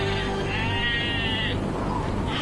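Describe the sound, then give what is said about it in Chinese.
Sheep bleat from a flock struggling through deep snow, with one drawn-out, wavering bleat in the middle over a steady, low background rumble. “这两只羊怎么了？”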